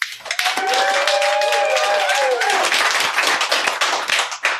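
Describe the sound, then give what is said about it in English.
Clapping after a host's name: a dense, even burst of many claps that starts almost at once and keeps a steady level to the end, with a brief voice heard early on. “John told me specifically not do that, but I just did. No clapping after my name.”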